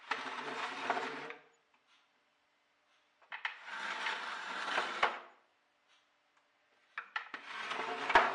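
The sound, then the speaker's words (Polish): Scraping of something dragged against a hard wooden surface comes in three rough, rasping bursts of one to two seconds each, separated by near-silent pauses. “Przerwał mi dźwięk skrobania czymś o twardą, drewnianą powierzchnię.”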